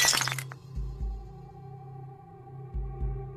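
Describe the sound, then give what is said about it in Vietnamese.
A cup falling from a hand and shattering: a brief, bright crash of breaking pieces at the very start, then a low, throbbing musical drone. “Cái cốc ở trên tay của cô rơi xuống, vỡ tan tành.”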